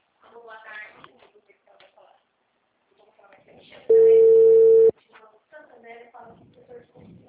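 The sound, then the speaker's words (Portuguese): A telephone call ringing out: a single steady, roughly one-second ring tone sounds between stretches of people talking. “Vou ligar pra ela, pra mulher.”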